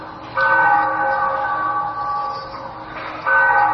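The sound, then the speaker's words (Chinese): Church bells ring at a famous church on Xizang Road in Shanghai. Resonant metallic tones sustain and slowly fade over about two seconds, then a fresh strike rings out near the end. “这个是钟声，这个是上海最著名”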